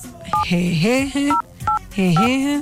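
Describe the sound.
Telephone keypad tones as a password is entered: four short, sharp dual-pitch beeps spaced among a voice speaking.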